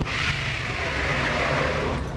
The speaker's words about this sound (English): What was that? That was the sound of smoke being made from the tires.